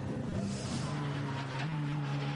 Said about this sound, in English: Yeah, the Dacia Logan is out on circuit at the moment. Yeah, just coming down towards Brünnchen.